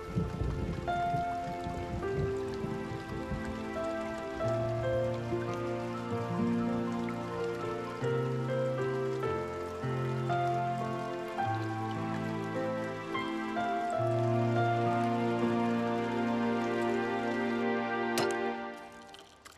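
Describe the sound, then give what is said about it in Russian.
Rain starting to fall, with a steady patter of drops heard alongside sustained, tonal music notes that play throughout. “Начинается дождь.”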